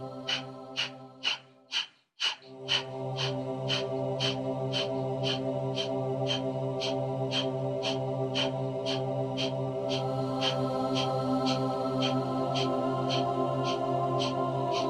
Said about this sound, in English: One last round of breath of fire, inhale through the nose, and begin.